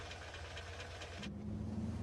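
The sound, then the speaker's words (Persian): An Opel, a German car with a slightly stiff clutch, runs with a steady low engine hum. A deeper drone joins after about a second and the engine grows a little louder. “مدلش چیه؟ اوپل؟ خب یه ماشین آلمانی، اما کلاژش یه خورده سفته.”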